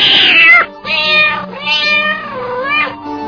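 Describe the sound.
A female cat meows several times in a row, each call drawn out and bending in pitch, loud and alone with no voices.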